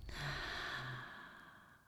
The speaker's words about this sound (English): In through the nose, open mouth,